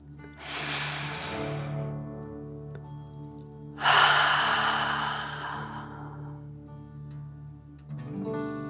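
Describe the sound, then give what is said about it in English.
Deep dragon breaths fill the chest and belly in a guided energy meditation, two long airy breaths, the second louder and fuller than the first, with a soft low tone underneath. “take another deep dragon breath. Fill up your chest and belly, in and out.”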